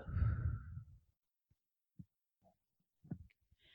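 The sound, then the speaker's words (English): A slow breath during a guided meditation: one soft, breathy exhale lasting about a second, then near silence broken by a few faint, soft clicks. “let's take one final breath in with that intention and a final breath out, releasing whatever you want to release.”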